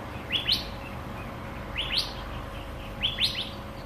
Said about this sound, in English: I love that bird.